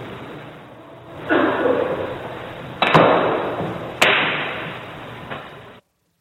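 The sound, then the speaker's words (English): Sharp clacks of a pool ball shot into a pocket during a game, a few crisp knocks standing out over a steady dull background. “Just gotta sink this last ball.”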